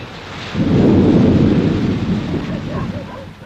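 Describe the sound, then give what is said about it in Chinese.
Thunder rumbles through a night thunderstorm with rain, a deep rolling boom that swells after a moment and then slowly fades over a steady hiss of rainfall. “这是个雷雨交加的夜晚”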